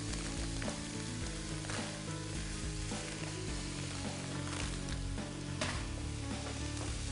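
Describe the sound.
Smoked food fries in a hot pan, giving a dense, steady sizzle with faint crackles that carries on unbroken throughout, fairly quiet and with no talk over it.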